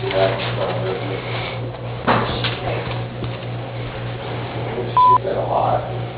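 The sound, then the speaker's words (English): A voicemail answering machine tone: one short, steady electronic beep after a stretch of low, humming line noise. “If you'd like to leave a message, please do so after the tone.”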